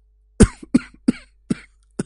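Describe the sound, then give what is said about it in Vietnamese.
A man in his fifties coughs five times in a row, each harsh burst clearly separated by a short pause, with no talking. “Tiếng ho khụ khụ tới gần. Một người đàn ông độ tuổi ngũ tuần từ cửa bước ra.”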